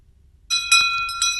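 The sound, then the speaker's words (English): A small bell rung a few times in quick succession, producing bright, high-pitched metallic dings that ring on and overlap, clear and alone against near silence. “Let's ring that bell”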